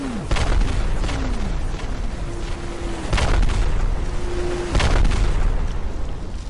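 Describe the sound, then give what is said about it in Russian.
Heavy booms of rockets striking the open ground between a farm and a village: a few loud blasts burst over a continuous rumbling roar, with thin whistling tones sliding through in between. “Но вдруг пространство между фермерским предприятием и деревней, а это более 300 метров, взорвалось!”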